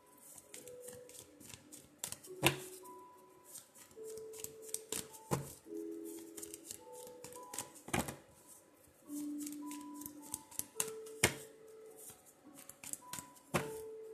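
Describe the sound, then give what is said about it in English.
Soft shuffling of a deck of angel cards, with many faint papery riffles and clicks at an uneven pace, quiet overall, over faint sustained background tones. “All right, let me see if I can get an angel card here.”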